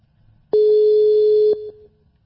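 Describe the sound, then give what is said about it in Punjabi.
A telephone ringing tone sounds as a call is placed: a single steady, mid-pitched electronic tone held for about a second, then dropping to a quieter trailing tone before fading, over a faint low hum. “ਆ ਲਓ ਜੀ, ਮੈਂ ਤੁਹਾਨੂੰ ਕਾਲ ਕਰ ਦਿੱਤੀ ਜੀ।”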